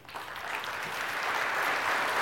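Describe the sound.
Applause from an audience welcoming a speaker to the stage: steady clapping that swells slightly in loudness over a couple of seconds.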